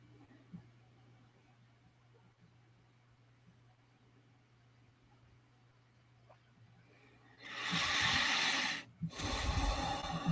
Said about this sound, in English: Let's just breathe in.